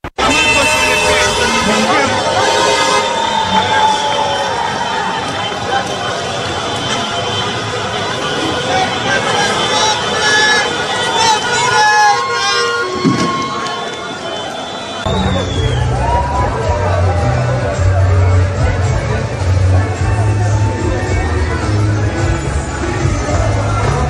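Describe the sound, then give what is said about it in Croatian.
Football fans celebrate in the streets of a Bosnian capital, with a crowd's babble mixing with traffic from long columns of vehicles. The noise stays loud and continuous throughout, and a heavier low rumble joins in partway through. “U glavnom gradu naše zemlje duge su kolone vozila, čuju se sirene, vatrometi, navijačke pjesme. Donosimo vam dio atmosfere.”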